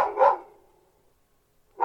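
A dog barks twice: one sharp bark at the start and another near the end, with near silence between them and no voices.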